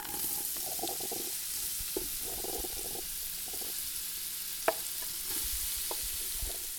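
An egg frying on a kitchen stove for breakfast gives a faint, steady sizzle and crackle that runs throughout, with an occasional small click rising above the hiss.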